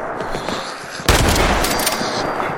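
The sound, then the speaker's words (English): Gunfire in a video game: quiet, muffled shots at first, then a sudden loud burst of gunfire that carries on as dense, rattling fire to the end. “I'm already getting shot at. Awesome. I brought my trusty shotgun with me”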